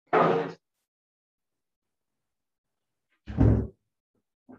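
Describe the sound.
A door being closed during an agricultural workshop: two dull thumps about three seconds apart, then a brief third knock right at the end, with silence in between.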